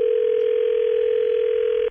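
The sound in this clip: A telephone dial tone sounds while a call is being placed to set up a three-way line: one steady, continuous mid-pitched tone that holds unchanged for about two seconds and then cuts off abruptly.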